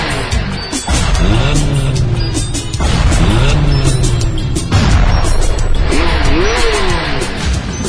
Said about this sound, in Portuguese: Eu vou acelerando um pouco mais. Já super vi, já acelera.